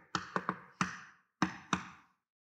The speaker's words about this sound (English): How a person knocks on a door actually says a lot about who that person is. Have you ever noticed this? Like if at your door you hear,